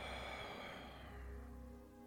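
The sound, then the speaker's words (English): A soft, breathy exhale out through the mouth during a guided breathing meditation: one faint, steady rush of air that gently tapers off. “Inhale into the nose. Exhale one more time out the mouth.”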